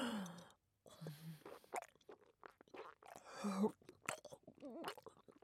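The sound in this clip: Wet chewing and crunching over several seconds, with irregular bites and a few breathy vocal sounds mixed in, all fairly quiet.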